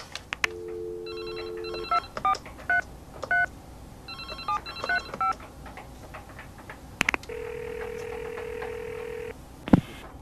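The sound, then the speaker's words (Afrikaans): A telephone is dialed for a call, with quick bursts of keypad tones in two clusters, then a steady, level ringing tone that holds for about two seconds before a sharp click. “hierdie ding moet ek share en dadelijk vir Ryan bel”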